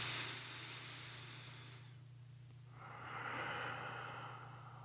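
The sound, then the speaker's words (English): Deep, slow breathing in and out, heard as soft airy rushes: one long breath fades into a brief pause before a second steady breath swells, over a faint low hum. “Take a deep breath. Breathe out slow. One more. Breathe right in your belly.”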